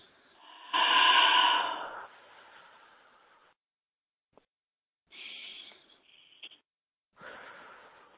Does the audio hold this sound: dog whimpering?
no